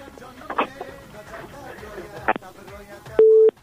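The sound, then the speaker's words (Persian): A telephone busy tone sounds after a caller's call drops: a brief beep, then a longer steady electronic tone near the end, following faint murmuring voices. “فکر میکنم تماس بانو فروهر قطع شده.”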